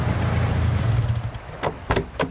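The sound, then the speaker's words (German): Car approaching, a low engine rumble that gradually eases off, followed by three short sharp clicks. “Geh mal ein bisschen an den Rand, da kommt dein Auto.”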